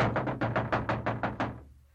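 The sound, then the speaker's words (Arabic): Urgent knocking on a door: a rapid, evenly paced series of many heavy knocks that stops abruptly, leaving a low fading resonance. “خير إن شاء الله، إنها طرقات ملهوف. عنك يا حرني، أنا أفتح الباب.”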